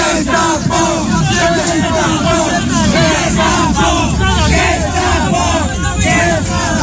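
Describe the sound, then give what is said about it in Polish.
Demonstrators trying to block an eviction shout at a bailiff, a loud, continuous mass of crowd voices with overlapping cries that keep up the whole time. “Z ust demonstrantów można było usłyszeć okrzyki pod adresem komornika.”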